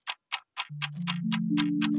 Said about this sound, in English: So, take an old-fashioned clock and wind on 4 years.